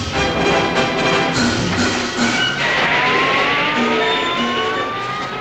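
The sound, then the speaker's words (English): A police car peels out and speeds away on a dark road, its engine roaring and revving hard under a continuous loud rumble, with a whining tone that climbs in pitch as it accelerates in the latter half. “The policeman climbs in and peels out.”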